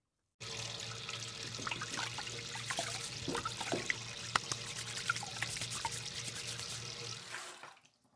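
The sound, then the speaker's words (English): Potatoes being washed under running tap water: a steady faint stream with scattered splashes and light knocks for about seven seconds, then it fades out. “first, get some potatoes and wash them”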